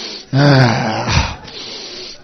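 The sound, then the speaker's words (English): A person draws a deep, audible breath with a voiced, gasping quality that lasts about a second, then trails into quieter breathing. “Take a deep breath.”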